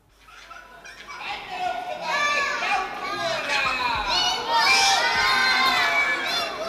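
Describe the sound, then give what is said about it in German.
A crowd of children shouts and cheers at a Kasperl puppet show, the excited high voices swelling in a dense, continuous din that stays loud throughout. “Ist ja ein Mordsbetrieb da drüben, was? Ach so, beim Kasperl, der da drüben.”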